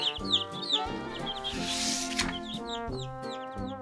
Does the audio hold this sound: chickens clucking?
yes